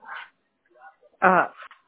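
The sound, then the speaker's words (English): Dogs bark during a phone call, giving a few short barks and yips with quiet gaps between them. The loudest, fullest bark comes late. “Hang on, my dogs were barking.”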